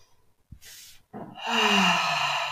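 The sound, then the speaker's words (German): A deep breath during a guided relaxation exercise: a short airy inhale, a brief pause, then a longer and louder exhale that turns into a low, voiced sigh and slowly fades. “einmal ganz tief ein- und ausatmen.”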